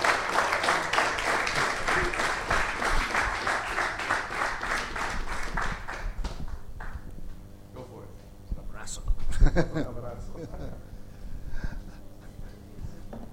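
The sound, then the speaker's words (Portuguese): An audience applauds to welcome a visiting guest speaker at a Portuguese-language gathering. Dense, loud clapping runs for about six seconds and then fades, followed by quieter talk. “Então vamos receber com um grande aplauso, né, nosso amigo Lynn.”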